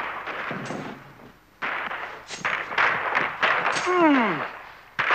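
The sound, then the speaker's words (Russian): Gunshots in a radio drama as one character shoots another. Sudden loud blasts cut in among voices and busy background sound, and a falling whine-like tone rings out between them. “Федор стреляет Зубова.”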